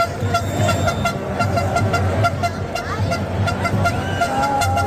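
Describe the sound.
Car horns honking nonstop through the streets of Badajoz as crowds celebrate Spain's World Cup victory; a continuous, dense blend of overlapping horn blasts over steady street and crowd noise.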